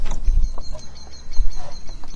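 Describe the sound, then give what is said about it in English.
Chickens out in their outdoor run at dusk on a May evening give faint, scattered clucks and calls over a low, rustling background. “just about to get dark. It's about 9 o'clock in May. And the chickens are still out in the run.”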